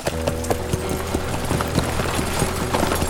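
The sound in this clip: A team of horses pulling a wagon: hooves clip-clop in a steady, brisk rhythm, many sharp knocks repeating evenly at moderate loudness over a constant low background.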